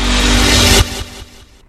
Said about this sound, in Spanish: Vos tenés el poder de elegir la XGB150Z de Génesis. Cuenta con un motor de 150cc, freno frontal de disco,